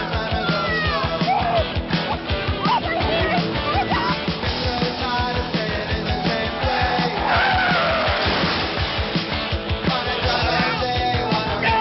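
Race cars skidding in an early arcade driving video game: dense synthetic engine roar and repeated electronic tire squeals, loud and continuous throughout.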